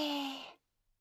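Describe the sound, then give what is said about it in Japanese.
A long, slightly voiced exhale from a slow deep-breathing exercise, breathy and steady before it fades out abruptly after about half a second, leaving near silence. “まずは深呼吸でちゅ。吸って、吐いて、”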